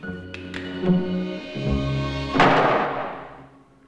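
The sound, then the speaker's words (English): A wooden trapdoor in a belfry ceiling opens overhead: a few dull wooden thuds, then a loud clattering burst that trails off into quiet. “As Lamar is about to fire, the trapdoor above opens, startling him.”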